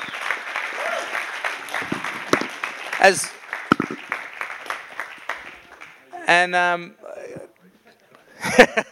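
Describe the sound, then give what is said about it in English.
Audience applause in a church, welcoming travellers who crossed Australia by bike and truck. Clapping mixes with talking voices and thins into brief quieter gaps toward the end. “So would you put your hands together for Dave, Francis and Laszlo.”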